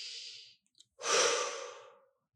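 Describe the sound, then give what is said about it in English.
A single deep breath: a steady airy inhale, then after a short pause a longer, louder exhale that slowly fades, with no talk. “take a big deep breath in and out.”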